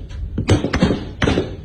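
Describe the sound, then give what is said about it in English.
Warning gunshots fired over water ring out as a few sharp, muffled cracks in quick succession within under two seconds. “There's the warning shot.”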